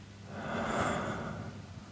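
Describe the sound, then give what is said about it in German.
A deep breath in and slow breath out during a meditation exercise, heard as one soft, airy, breathy swell that rises and fades over about two seconds. “tief einatmen und langsam wieder ausatmen. Na, ich mache das jetzt einfach mal, kannst du auch gerne mitmachen. Einatmen und wieder ausatmen.”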